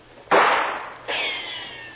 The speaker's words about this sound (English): Boy, they're not bad shots. Almost feel the breeze from that one.